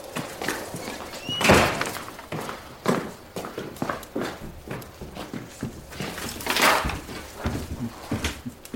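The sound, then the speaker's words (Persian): Firewood tossed into a fireplace: many irregular hollow wooden knocks and thunks, with two louder clattering crashes standing out among the softer hits. “چوب جمع کرده میریزه تو شامینه.”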